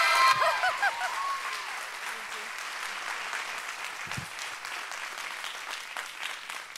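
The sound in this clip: Audience applause welcoming a speaker to the platform: dense, sustained clapping that is loudest at the start and then holds steady and even throughout.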